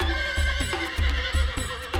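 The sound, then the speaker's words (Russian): A horse neighs loudly, a long, shaky whinny that stays strong for the whole stretch, with low, rhythmic pulses running beneath it. “Так громко она заржала, что на соседнем дворе лошадь отозвалась.”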